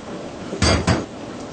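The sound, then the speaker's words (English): A spoon clinks against a bowl as it is washed in hot water: two short clattering knocks close together, moderately loud over a faint background, with no talking. “the spoon can dip into the hot water, like that, wash it up, right? Now we could put it in. See, the bowl almost clean.”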